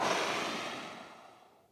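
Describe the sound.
A voice imitates blowing on glowing sticks to coax a fire alight: one long, breathy exhale that starts strong and slowly fades away.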